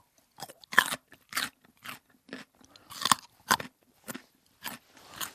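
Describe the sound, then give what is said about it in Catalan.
A fresh, juicy raw carrot being chewed, giving a series of crisp, sharp crunches in an uneven rhythm, each bite short and dry, with no talking. “Estic queixalant una pastanaga.”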